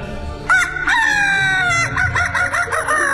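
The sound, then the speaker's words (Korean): A rooster crowing outside apartment buildings, a loud, drawn-out call with a strained, buzzy tone that breaks into a choppy, stuttering tail. “닭 소리가 들립니다.”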